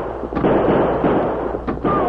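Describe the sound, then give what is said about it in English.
Gunfire during a western stagecoach holdup with an outlaw: two sharp cracks ring out over a dense, continuous rumbling background noise. “That's the banker's uncle. He's opened fire.”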